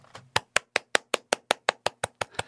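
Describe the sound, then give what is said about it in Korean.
Hands clap in a steady, even rhythm, about a dozen sharp, bright claps at a quick regular pace after a faint first tap. “제가 지금 박수를 치니까”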